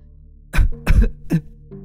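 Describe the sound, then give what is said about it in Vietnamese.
A woman coughs after being choked: three harsh, loud coughs in quick succession that follow a quiet moment, with a faint breathy sound after them. “Ma nữ buông tay ra, Trân ôm cổ ho lên mấy tiếng.”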